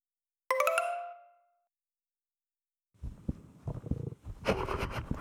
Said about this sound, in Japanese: お腹鳴った。